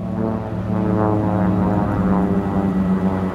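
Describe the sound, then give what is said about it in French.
An Australian rescue propeller aircraft drones overhead above the stormy Southern Ocean during the 1996 Vendée Globe. Its steady engine hum is loud and continuous, with layered harmonic tones that waver slightly. “Le lendemain, nouveau passage de l'avion des secours australiens.”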